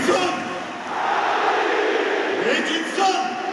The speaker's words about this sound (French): Fêté par le public, Cavani.